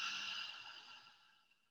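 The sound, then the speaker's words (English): A deep breath during a loving-kindness meditation: a single soft, airy rush of breath that slowly fades away over under two seconds, with no talk. “A deep breath in through your nose and a full breath out through your mouth.”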